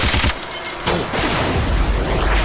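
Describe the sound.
Loud machine gun fire in a video game, a dense rattling barrage with a brief lull early on before another sharp burst and the sustained fire resumes to the end.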